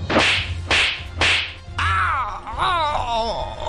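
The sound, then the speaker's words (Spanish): Three sharp, loud slaps land on a person's own face in a quick, even rhythm. A strained, wavering vocal sound follows them. “Déjenme doy unas cachetadas.”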